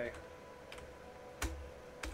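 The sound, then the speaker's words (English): Typing on a computer keyboard gives a few sparse, quiet key clicks spread over a couple of seconds against a low background. “if I type it out in the chat, I can do this.”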